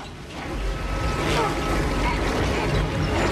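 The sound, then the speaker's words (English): Water gushes along a stone trough and falls onto an enormous wooden wheel, turning it: a loud, steady rushing wash that holds for the whole stretch. “water gushes along a stone trough. It falls onto an enormous wooden wheel, making it move”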